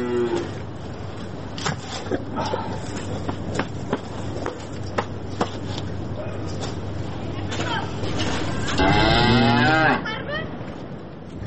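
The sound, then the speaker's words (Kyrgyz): Cattle lowing as livestock go out to pasture: one loud, drawn-out moo comes near the end over steady outdoor noise, with scattered clicks and hoof or footstep sounds throughout. “Мына мынтип жайытка чыгат мал.”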